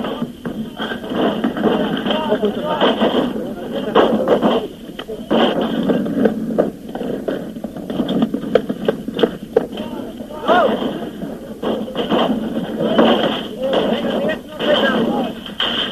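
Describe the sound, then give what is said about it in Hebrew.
Gunfire in a combat zone on the slope of the Mount of Olives near Jerusalem's Old City: many sharp shots and bursts crack repeatedly under nearly continuous talking. “אנחנו הולכים ליד צלע ההר, שופים אל הגדרות האבנים, עדיין יורים עלינו.”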